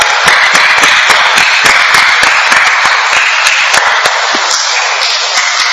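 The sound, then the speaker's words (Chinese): Rapid hand clapping as part of a clapping health exercise: many fast, sharp claps in a dense, steady rhythm, loud throughout and without any voices. “原来拍手掌系咁有益嘅”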